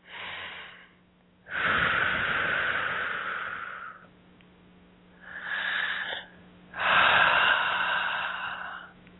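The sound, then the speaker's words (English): Deep breathing: a few slow, long, airy inhales and exhales, rising and fading in smooth swells with short gaps between them, heard alone without talk. “A couple nice deep breaths.”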